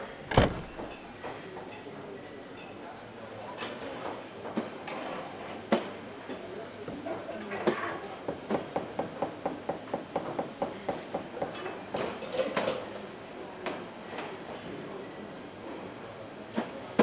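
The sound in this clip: Train doors close and a train pulls away. The sound is faint, with a few sharp knocks over a low hum and a run of regular clacks in the middle.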